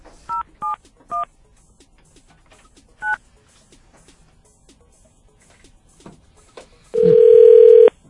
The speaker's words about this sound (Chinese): 我们要打给他。We wanna call him。